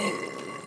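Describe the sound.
A single long burp after a hearty dinner, loud and drawn out with a steady, buzzing tone that holds for most of its length before tailing off.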